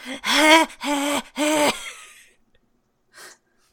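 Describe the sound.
Distressed vocal noises from a female cartoon character: three loud, strained, voiced gasps in quick succession, each bending in pitch, then a pause and one short, faint breath.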